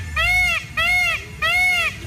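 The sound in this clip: A peacock gives three loud, nasal calls, evenly spaced. Each call is a wailing cry that arches up and then down in pitch.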